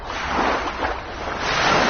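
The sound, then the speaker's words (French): Summer sea waves make a soft, steady surf wash that swells and eases gently over a couple of seconds, with no voices. “c'est l'été, vous entendez la mer sous ma voix.”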